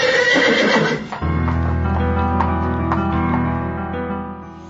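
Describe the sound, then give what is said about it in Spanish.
A horse neighs loudly, one of two white purebred horses drawing a gold-adorned royal carriage. The whinny is a single call that fades within about a second. “La carroza real del príncipe de Verona, de nombre Escalo, apareció con su corte real y su coche empotrado en oro y tirado por dos hermosos caballos blancos de pura sangre.”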